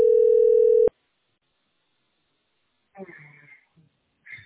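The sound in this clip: A telephone dial tone sounds as a call is placed: a steady, loud, unwavering tone lasting about a second, then cut off into silence before a voice speaks briefly.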